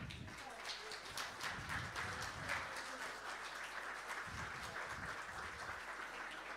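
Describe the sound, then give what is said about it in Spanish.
A church audience at a Sunday service applauds with faint, continuous, dense hand clapping that holds at an even level throughout. “Le damos un aplauso.”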